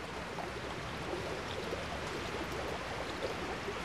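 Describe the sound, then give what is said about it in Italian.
A mountain torrent flowing from Folgaria toward the Adige makes a steady, even rush of water. The wash is broad and constant, fairly soft, with no talk. “Rio Cavallo, il torrente che da Folgaria scorre lungo Cagliano e si getta nell'Adige. Con i bambini l'abbiamo percorso tutto, il torrente. L'abbiamo esplorato ed ascoltato.”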